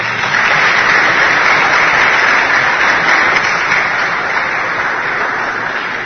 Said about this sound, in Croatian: pa još jednom da ga jednim gromoglasnim aplauzom pozdravimo.